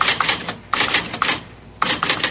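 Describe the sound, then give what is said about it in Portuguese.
Typewriter typing as a sound effect: dense, loud runs of clattering key strikes in several bursts separated by short pauses. “o inventor americano Christopher Latham Sholes patenteou a primeira máquina de escrever moderna”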